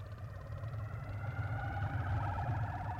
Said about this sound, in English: hooked up so you can hear what the traffic sounds like on Route 23 in Accra.